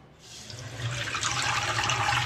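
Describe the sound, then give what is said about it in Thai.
Tap water runs from a faucet, the flow murky and pale yellow, making a steady rushing hiss that starts softer and swells louder after about a second, then holds constant to the end. “ให้ดูก่อนนะอันนี้คือเพิ่งไหลออกมาจากก๊อกน้ำเลย”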